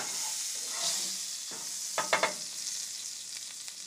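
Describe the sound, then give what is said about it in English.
Potatoes fry in a pan with a steady bright sizzle. A few quick scraping clicks of stirring stand out briefly in the middle. “Or as we say, potatoes. Cooking them up. Cooking up potatoes.”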